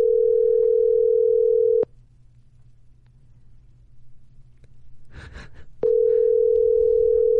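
Ringback tone of an outgoing phone call ringing unanswered: a steady, loud electronic tone stops, a quiet gap of about four seconds passes with a brief rustle, then the tone returns.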